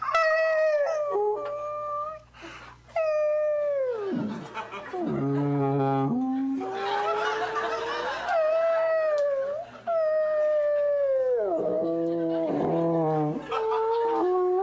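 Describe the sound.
A person's voice imitates whale calls with many long, wavering, howl-like moans. The moans glide up and down in pitch and run almost continuously, with short breaks between them.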